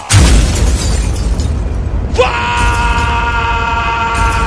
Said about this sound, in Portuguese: Taca fogo na bomba!